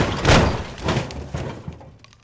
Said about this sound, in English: What was that? Smash! Oh, it appears, my good fellow, that someone done sabotage to my beautiful smashing machines.